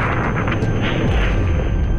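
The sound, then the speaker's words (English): A loud, sustained roaring rumble as a Space Shuttle explodes after liftoff. The dense, low-heavy roar holds steady across the whole moment, with no voices. “We have a report from the flight dynamics officer that the vehicle has exploded.”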